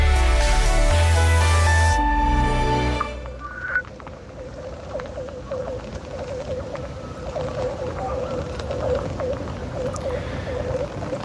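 Ice skates gliding over thin, singing ice on a fen: steady scraping hiss with scattered high pings and eerie whale-like ringing tones, after a brief burst of tonal music at the start.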